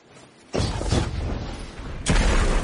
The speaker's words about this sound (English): Bungie actually released a clip of how they've adjusted the sniper rifle. Let's take a look at that